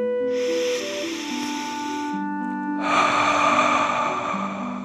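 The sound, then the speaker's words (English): Deep belly breath drawn in and then let out during a guided relaxation: two long, airy rushes of breath over soft, sustained music. “Deep breath filling up your belly in and out.”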